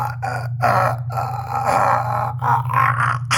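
A man choking and struggling to breathe as a rope tightens around his neck, with loud, strained, throaty groaning that runs almost continuously with a few brief breaks.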